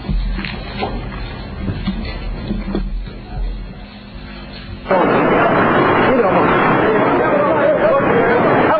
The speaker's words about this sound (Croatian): Ovdje ćemo sada prikazati snimak sa tog incidenta eksplozije neke granate, 130 mm, granate 130 mm na kapiji u Tuzli.